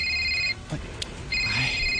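An incoming call rings on a telephone in two high, buzzing bursts separated by a short quiet gap, the second burst running to the end.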